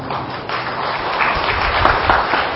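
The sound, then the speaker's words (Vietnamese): Steady audience applause at a Buddhist sermon, a dense continuous wash of many hands clapping that holds at an even, fairly loud level throughout, with no talking over it. “Vỗ tay là được hay không?”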